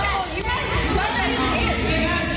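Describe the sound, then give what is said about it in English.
Children no older than eight play indoor soccer in a YMCA gym: a constant busy wash of ball thuds, squeaks and young voices, with a voice talking over it. “A hot Georgia day means two soccer teams have taken their game indoors to the gym.”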